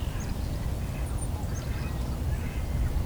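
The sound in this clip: Mallard ducks quack and cackle faintly over a steady, noisy outdoor background, with the calls scattered and hard to pick out.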